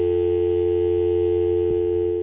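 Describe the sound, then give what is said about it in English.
A steady telephone dial tone hums continuously while a call is being redialed, with a faint click partway through and no voices. “Bottom number there. Would you dial it up for me, please?”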